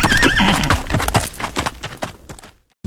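A horse gives a loud whinny with a wavering pitch, followed by a rough series of snorting and clopping bursts. These fade to near silence, and a short burst of sound returns at the very end.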